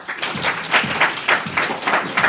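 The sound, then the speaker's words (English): Audience clapping at a Bozeman mayoral campaign event, a short burst of hands beating in a loose, quick rhythm at moderate volume. “Let's do by a quick clap.”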